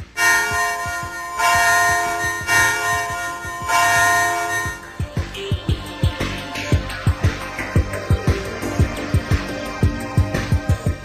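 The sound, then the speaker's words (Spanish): Bell ringing: at first a sustained, resonant ringing tone with slow swells, then many rapid, evenly spaced strikes in a steady rhythm, loud throughout. “¿Qué instrumento musical no tiene más que una cuerda? La campana.”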